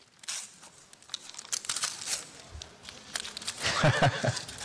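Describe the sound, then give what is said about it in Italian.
Paper gift wrapping torn off a book: many crinkling rips and crackles, loud and uneven, with denser tearing toward the end. “vedo che c'è un pacchetto. Esatto, è il libro che ti invito a scartare.”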